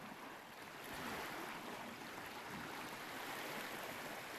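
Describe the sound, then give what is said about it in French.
Ocean waves break on a coral coast at Pointe-l'Herbe. They make a faint, continuous wash of surf that swells slightly and stays steady, with no distinct crashes standing out. “Me laisse vous écouter le bruit de bonne vague de l'océan.”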